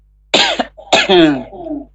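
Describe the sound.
Two coughs from a person during a season of common illness: abrupt, harsh bursts with short voiced tails, loud and spaced about half a second apart, with no other sound around them.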